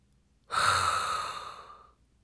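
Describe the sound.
A single deep inhale through the mouth starts suddenly as an airy, breathy rush and gradually fades over about a second and a half, with silence before and after.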